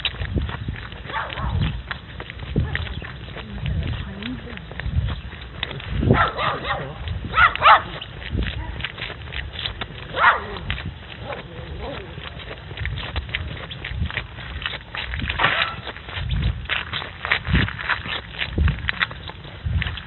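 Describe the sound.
A dog barks in repeated bursts throughout, with people talking over it and other short knocking sounds mixed in.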